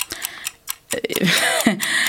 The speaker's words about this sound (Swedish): Och klockan tickar.